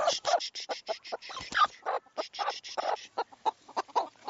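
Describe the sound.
Agitated, harsh clucking from an angry broody bantam hen sitting on many eggs: a rapid, irregular series of choppy calls with no talk over them.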